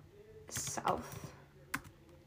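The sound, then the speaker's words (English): Typing on a computer keyboard: a fast, uneven run of crisp key clicks that bunches into a denser burst near the middle, followed by a few scattered taps and one sharper click near the end, all fairly faint. “You can hear my typing.”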